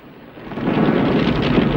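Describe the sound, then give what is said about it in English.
A helicopter crashes and explodes in a fireball: a dense, heavy roar swells up from a quieter start, then holds loud and steady with a strong low rumble. “Smoke billowing behind it, the chopper drops like a stone and crashes on the ground. The helicopter explodes in a vast fireball.”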